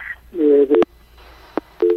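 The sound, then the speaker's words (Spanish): Telephone line tones after a call is cut off: a few short, steady electronic tones broken by sharp clicks, with a stretch of faint hiss between them. “claramente se cortó la llamada”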